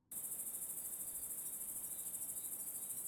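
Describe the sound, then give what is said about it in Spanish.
A chorus of crickets at night at a campsite under a starry sky: a steady, high-pitched trill with a fast, regular pulse, fairly faint, with no voices. “se quedaron parados juntos mientras miraban el cielo lleno de estrellas y escuchaban el coro de grillos”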